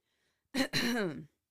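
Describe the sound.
Throat clearing: a short, rough rasp followed at once by a longer, gravelly, partly voiced rumble from the throat, moderately loud and alone, with silence on either side.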